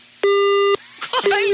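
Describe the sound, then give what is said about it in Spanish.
Telephone busy tone after a caller hangs up on a radio phone-in: a loud, steady, high beep, then a brief voice, then the beep starting again. “Y oiga lo intenso del pito al final. Ay, que pi, pi, pi, pi, pi,”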